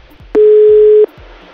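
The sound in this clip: A telephone line tone sounds as a call is placed, a single steady low beep of under a second standing out clearly over faint pulsing background noise.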